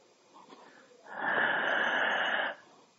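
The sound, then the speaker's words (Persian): A deep inhalation during a breathing exercise: one long, airy, fairly loud intake of breath lasting about a second and a half, heard alone. “تنفس عمیق. منو نگاه کنیم،”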